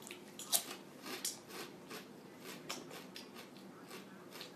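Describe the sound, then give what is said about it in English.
Crunchy chips with seeds being chewed give many faint, crisp crackling bites in an irregular rhythm, with no voices. “I can't get over how awesome the chips taste. I got seeds in it. I don't taste one bit of vinegar or salt.”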